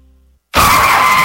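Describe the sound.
Tyre screech of a car skidding as it fails to brake in time near a construction zone before striking a pedestrian. A faint low hum, a moment of silence, then a sudden loud, sustained squeal that holds steady to the end.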